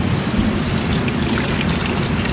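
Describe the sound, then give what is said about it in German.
Mineral water from the Klotzer spring flows out of the Eichhörnchenbrunnen fountain, making a steady, even splashing hiss that stays at one level for the whole stretch, with no talking. “Und auch vom Eichhörnchenbrunnen, aus dem das Mineralwasser der Klotzerquelle fließt, wird ein Schluck genommen.”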